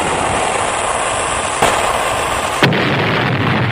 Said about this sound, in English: Fire one, Captain.